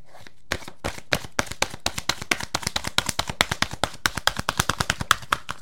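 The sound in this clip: Oracle cards are shuffled in a long run of crisp, rapid taps and flicks. Many short sharp clicks follow one another in a fast, steady rhythm, with no voices.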